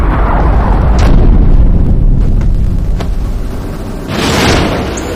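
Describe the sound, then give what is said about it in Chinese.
Gunfire from a soldier firing a gun for the first time on a battlefield: a few sharp cracks over a loud, continuous rumbling background, with a broader blast-like burst near the end. “这可是我第一次开枪啊！”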